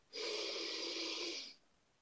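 A single deep breath drawn in, a steady, breathy rush of air lasting over a second before stopping abruptly, heard alone and fairly soft.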